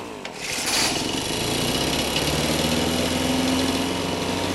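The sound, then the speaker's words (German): A leaf vacuum without MTF starts up and runs: a loud, steady engine drone with a buzzing high whine, holding an even level after a brief start-up surge. “diesen Laubsaugern kann man das auch akustisch sehr schön demonstrieren. Der hier ist noch ohne MTF. Hören Sie!”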